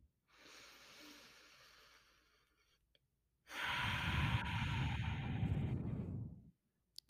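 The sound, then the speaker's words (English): A deep breath taken during a guided breathing moment: a soft, airy intake of breath, then after a short pause a longer, louder breathy rush of air, with no talking. “take in a deep breath with us.”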